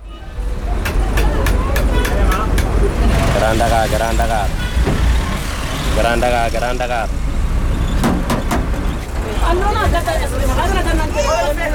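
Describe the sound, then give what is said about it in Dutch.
Street traffic and engine rumble inside a crowded car rapide minibus in Dakar, Senegal. People talk throughout over a steady, loud vehicle drone. “Dakar, Dakar Centrum, roept de jongen achter op de car rapides, de felgekleurde minibussen die je overal in Dakar ziet rijden.”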